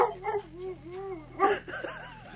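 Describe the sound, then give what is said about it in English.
A dog barks and whines at a person: a few sharp yips and whimpering cries with wavering pitch, with a louder burst partway through and no talk over it. “He's like looking at you and barking at you.”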